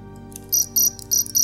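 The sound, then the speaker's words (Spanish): Crickets chirp in shrill, rhythmic bursts: four pulsed trills sound clearly over a steady low drone. “Mis grillos.”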